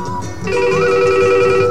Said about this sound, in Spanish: Sí, sí, tenemos una llamada y un radioescucha.